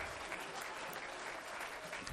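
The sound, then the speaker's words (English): A church audience applauds together, producing a faint, sustained wash of many hands clapping at an even level with no clear breaks. “Let's clap our hands into him.”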